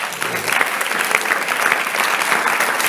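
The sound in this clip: An audience claps for the Lord in a dense, sustained burst of applause from many hands that stays even and loud for the whole three seconds.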